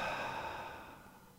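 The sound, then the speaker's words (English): A slow, soft exhaling breath taken during a calming breathing exercise: a steady, airy rush that gradually fades away. “Inhale. Hold it and exhale.”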